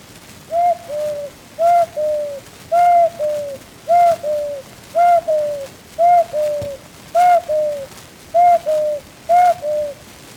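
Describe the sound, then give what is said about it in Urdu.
A person imitates a koel's springtime call: nine evenly spaced two-part cooing phrases, each a clear tone that slides down in pitch, repeated alone at a steady rhythm. “یہ انسان ہو کر پرندوں کی بولی کس صفت کے ساتھ سنا رہا ہے؟ اچھا بیٹا، موسم بہار میں کوئل درختوں پر کیوں کر چہچہاتی ہے؟”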